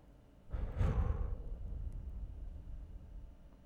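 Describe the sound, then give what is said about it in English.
A long, full exhale emptying the lungs during a guided relaxation exercise: a breathy rush that starts abruptly, peaks near its start, then slowly trails off, with no talk. “Start off by exhaling all of your breath. Are you ready? Exhale all of your breath now.”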